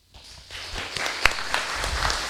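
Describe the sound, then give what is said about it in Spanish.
Applause for fathers at a church service on Father's Day. After a brief hush, many hands start clapping, then swell into a steady, fairly loud round with a few sharper claps standing out. “a quienes con cariño les brindamos un aplauso.”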